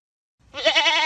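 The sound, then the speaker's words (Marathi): A single goat bleat from an Osmanabadi goat enters after a short silence, a loud, wavering, harmonic cry that holds steady to the end. “शेळी पालनातून समृद्धी. उस्मानाबादी शेळी सर्वत्र प्रसिद्ध आहे.”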